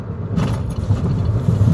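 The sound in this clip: A car being driven, heard from inside: a low, steady rumble of engine and road noise that holds evenly for under two seconds, with no talk.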